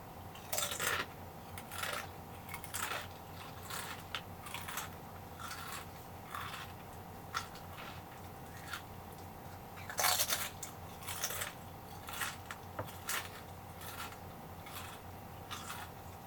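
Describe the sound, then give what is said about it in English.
Crunching of dry chips being eaten: many crisp, sharp bites and chews at irregular intervals, fairly faint, with no talking. “I'm eating chips because apparently this puts people to sleep.”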